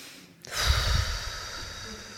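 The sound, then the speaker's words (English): A slow, audible breath taken during a meditation teaching: a brief quiet gap, then one long, breathy rush of air that swells and holds for nearly two seconds, with no talk. “Okay, breath in and out, breath out.”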